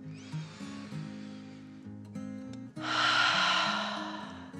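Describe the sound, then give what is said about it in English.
A slow, deep calming breath drawn in and let out during a bedtime relaxation exercise, a long breathy hiss that swells and lingers over soft, steady background music. “took another dragon breath, calming her body in and out.”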